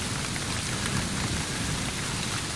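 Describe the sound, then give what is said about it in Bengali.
Heavy rain pouring down onto a street, a dense, continuous hiss and roar of countless drops, loud and unbroken throughout, with no voices. “বৃষ্টির যা তাপড় তাতে রাস্তায় এক পা দিলেই ভিজে একসা হব।”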